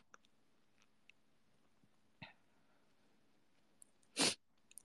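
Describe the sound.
A single loud, abrupt sneeze bursts out near the end over a quiet background, preceded by a few faint clicks and a small breathy sound.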